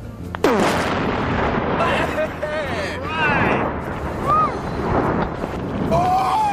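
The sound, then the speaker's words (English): An explosion is set off by the MythBusters: a sudden sharp blast, then a sustained, loud rumbling roar, with excited voices calling out over it. “That was the sound of the Mythbusters doing what they do best, blowing stuff up.”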